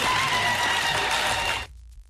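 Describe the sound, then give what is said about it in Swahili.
A crowd at a public meeting cheers and applauds with loud, steady clapping mixed with raised voices, then cuts off abruptly near the end. “Haya ni shangwe ambazo zinaonekana kuungwa mkono na baadhi ya wananchi”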